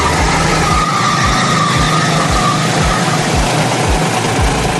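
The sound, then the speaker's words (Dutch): Go-karts race around the Silverstone circuit, with about a hundred karts on track: loud engine buzz and a steady series of low, quick passing drones over a constant wash of noise. “Op het circuit van Silverstone nam hij het op tegen 100 mensen in een kart.”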